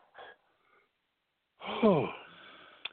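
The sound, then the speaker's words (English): An asthma inhaler in use: a faint short breath, then a loud rushing, breathy inhalation with a wheezy, voiced edge that trails off into a steady hiss and ends with a small click. “Okay, wait a minute. Hold on. I got to take this damn inhaler.”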